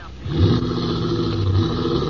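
A car engine starts pulling away as passengers head back to town. A low, steady rumble rises in after a moment and holds on without pause, with no talk over it.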